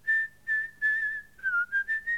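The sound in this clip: A person whistles a tune, a clear mid-pitched melody of held notes that gives way to a quicker run of short notes, heard alone.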